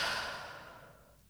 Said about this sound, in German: Nochmal tief einatmen und wieder ausatmen.